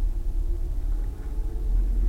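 Low, rough rumble of a car engine grinding while driving, steady and continuous with slight fluctuations and no voices.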